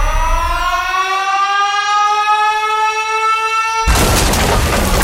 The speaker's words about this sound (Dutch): En elke keer je de caloriebom hoort ontploffen op de radio kun je dat doen.